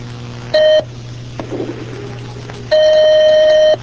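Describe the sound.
Telephone ringing for an incoming call on a call-in line: a short electronic tone, then after a pause a longer steady tone of the same pitch, over a constant low hum.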